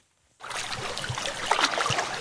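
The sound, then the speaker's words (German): Water laps sluggishly against a harbour quay wall in the Bay of Izmir. A steady, soft splashing wash starts abruptly and continues with small irregular slaps. “Etwas träge klatscht das Wasser in der Bucht von Izmir an die Ufermauer.”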